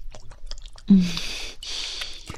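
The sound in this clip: Wet chewing and squishy mouth sounds from eating a freshly made grilled sausage, soft and close with a sharper slurp near the start followed by steady moist smacking.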